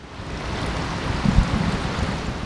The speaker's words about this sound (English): Water flows into a concrete tank where 18-month-old brown trout dart back and forth as Darren Miller stands nearby at the Les Voigt State Fish Hatchery.